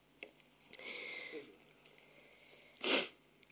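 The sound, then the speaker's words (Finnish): A tearful speaker sniffles while crying: a few soft, breathy nasal sounds, then one louder, sharper sniff near the end, all faint and alone. “Taas, anteeksi, itkuni”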